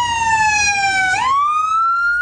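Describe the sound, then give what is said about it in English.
An emergency vehicle siren wails at a house fire. Its tone glides steadily downward, then sweeps back up and holds high and loud. “sirens blare on Riverbend Drive as plumes of smoke tower above a home ravaged by fire”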